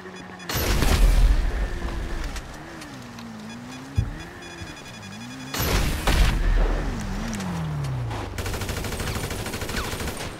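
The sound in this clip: Gunfire from a street gun battle bursts out in two loud, dense spells, laid over a droning vehicle engine whose pitch wavers up and down, then eases into a steadier hum; no one speaks.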